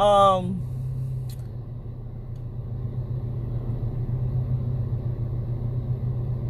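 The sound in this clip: Low, steady rumble inside a car, a constant engine-like hum with no breaks. A brief voice fragment sounds at the very start.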